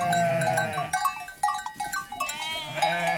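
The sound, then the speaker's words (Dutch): Sheep bleating on a farm where they are kept to graze: several wavering, nasal calls. A long bleat opens, a few shorter overlapping ones follow, and another drawn-out bleat closes the sequence. “Hij is dol op zijn schapen.”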